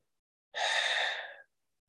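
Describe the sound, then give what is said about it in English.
A person's breath is heard as a single long, airy sigh lasting about a second, soft and hissy, standing alone against silence. “You can hear my breath.”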